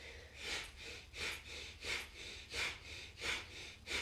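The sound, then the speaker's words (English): Forceful breathing in and out through the nose during a breathwork exercise: six strong, airy nasal exhales at a steady rhythm, each rising and fading, soft overall. “You're going to grab the energy as you inhale, and then you're going to exhale powerfully through the nose.”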